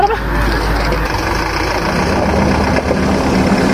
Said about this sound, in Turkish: Aha, abi araba geldi abi.